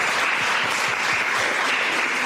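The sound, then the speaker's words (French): Audience applause after the first question session of a talk with women scientists, a continuous, even roar of many hands clapping with no pauses. “J'aimerais qu'on s'applaudisse pour cette première session.”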